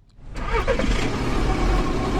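A car engine starting for a morning drive out of the city: after a brief quiet moment it catches and settles into a loud, steady low rumble that holds to the end.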